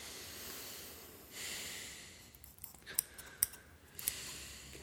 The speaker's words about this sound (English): Should we just go over to that mic on that side and just do a little bit of cutting close up? Yeah. You can hear the intensity of what's happening here.